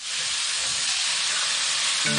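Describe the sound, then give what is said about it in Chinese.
Pork for Sichuan twice-cooked pork sizzling in hot oil as it is stir-fried in the pan, a loud, steady, bright hiss that carries unbroken throughout with no talk. “我们四川的回锅肉，它还是先要放油，虽然它这个肉里面有肥肉， 也就是咱先炒肉，是吧？”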